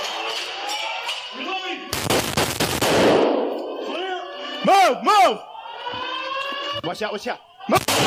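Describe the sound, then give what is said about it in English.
Rapid rifle gunfire cracks inside a school building in several quick bursts, while a fire alarm sounds throughout with repeated rising and falling tones. “it's very hard to identify where the shooting is coming from in buildings like this”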